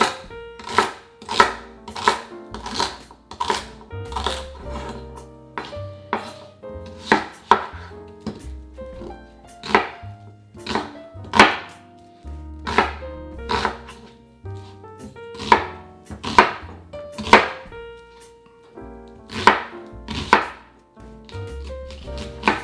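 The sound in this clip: A knife chops celery into medium-sized pieces for a vegan black bean soup, with many sharp, rhythmic cuts against a board in quick, fairly even bursts, heard alone with no voices.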